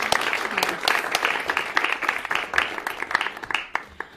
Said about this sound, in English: Give yourselves a hand for coming up and being with us.